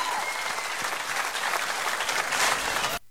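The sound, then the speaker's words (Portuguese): Applause from a crowd: dense, steady clapping that stays loud throughout and stops abruptly near the end. “salve de palmas, milionários”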